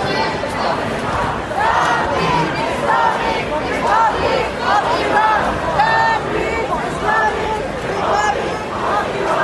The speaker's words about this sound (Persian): من میخوام یکی از ویدیوهایی که الان به دست من رسید رو برای شما نشون بدم از تظاهرات دیروز ترافالگار اسکوئر در لندن